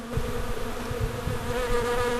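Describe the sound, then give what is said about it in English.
Honeybees buzzing around an open hive, a dense, continuous droning hum that holds at a steady loudness throughout. “If you've got a fully functioning hive, you'll have up to 50,000 bees.”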